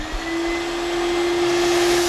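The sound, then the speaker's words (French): A steam cleaner dissolves dirt while vacuuming car upholstery, giving a steady, unbroken whooshing drone with a constant motor hum that grows slightly louder toward the end. “C'est de la vapeur, tout simplement, de la simple vapeur. Le fait de dissoudre ces impuretés avec la vapeur et l'aspirer en même temps, rendre le tissu comme neuf.”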